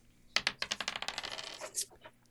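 Dice being rolled: a rapid run of many sharp, clattering hits that gradually soften, with one brighter click near the end before the rattle dies away.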